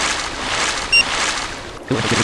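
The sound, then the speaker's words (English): River water rushes in a steady, broad wash of noise, broken by a brief high electronic beep near the middle and a low thump toward the end. “A big river! Uh-oh. I think I might die.”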